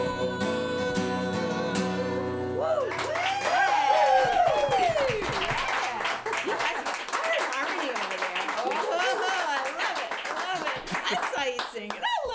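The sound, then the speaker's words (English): A live studio audience claps and applauds, steady clapping running under music at first and then continuing beneath someone talking. “I want you to know, folks, we have a really live, wonderful, enthusiastic audience here.”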